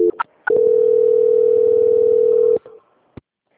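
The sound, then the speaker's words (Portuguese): A telephone call-transfer tone: short blips, then one long, steady, even tone lasting about two seconds, then a brief tail and a sharp click. “Eu vou transferir para o controle de qualidade, só mais um momento. Transferência.”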